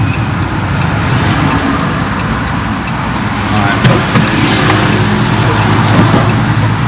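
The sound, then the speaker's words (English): Road traffic rumbles as a bus approaches, a continuous low drone of engines and tires that holds at a fairly even, loud level throughout. “The bus is coming, I'll be up before the bus gets in.”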